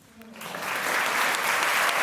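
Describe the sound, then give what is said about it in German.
An audience applauds in a hall in Zurich for two guests from Indonesia. The clapping swells from a faint start into a loud, dense roar of many hands that holds steady to the end. “Applaus im Volkshaus Zürich für Arif Pujanto und Ibu Asmania, ein Mann und eine Frau aus Indonesien.”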